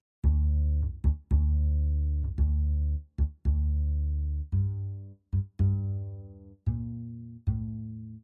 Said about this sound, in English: What does that sound like? The upright bass, which is like the big one.